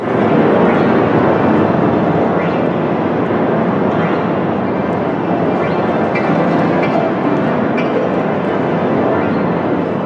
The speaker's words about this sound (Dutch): Oké, en dan heb je 50 piano's zelfs. Nu, ik heb online een ultrakort fragmentje gevonden van hoe dat klinkt, want dat vragen mensen zich ongetwijfeld af. Wel, dat klinkt ongeveer zo.